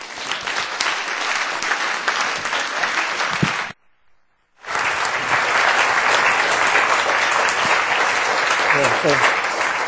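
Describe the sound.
An audience applauding to welcome a speaker: loud, dense clapping, a brief near-silent break, then a second long burst of sustained applause.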